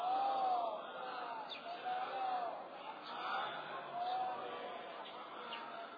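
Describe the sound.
An audience recites salawat in unison at a gathering honouring three imamzadehs, many voices chanting together in rolling, rising and falling waves at a steady moderate level.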